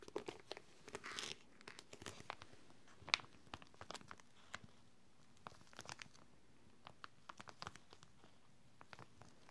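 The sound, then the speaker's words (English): A plastic cover crinkles and rustles as a journal is taken out of it. The faint sound is made of many small, irregular crackles and crunches, with no talk. “it's a wonderful journal. Let me take it out of the cover, the plastic cover.”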